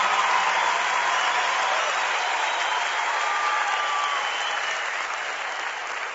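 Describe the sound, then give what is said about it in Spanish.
An audience applauds loudly in praise of the Lord in a Christian gathering. The clapping is dense and sustained, fading only slightly toward the end. “Dale ese aplauso fuerte al Señor.”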